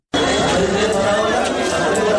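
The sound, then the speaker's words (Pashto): Dense crowd chatter fills the crowded waiting area of Asadabad central hospital, where patients and their attendants wait for treatment. Many overlapping voices form a constant, loud hubbub with no single clear speaker. “دا د اسداباد مرکزی روغتون دی چې په کې ناروغانو او د هغوی پیوازانو ګڼه ګوڼه جوړه کړې ده.”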